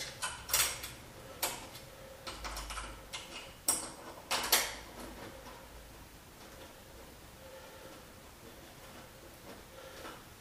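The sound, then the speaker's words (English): Screw turned by hand into the top hole of a panel that is already hooked in place, giving a few faint scraping clicks and ticks in the first half, then only soft steady hiss. “Now we'll put the screws in. Go into the top one first.”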